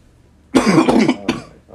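A person coughs and clears their throat, with a harsh, rough burst that breaks into a couple of quick hacks, then a final short cough.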